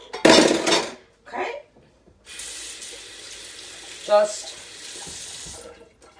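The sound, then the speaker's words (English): Running tap water rinses cream off fingers at a kitchen sink: a few short splashes, then a steady stream pours for several seconds with one brief louder gush partway through. “Just rinsed off my fingers from the cream, and we'll put our mixer aside.”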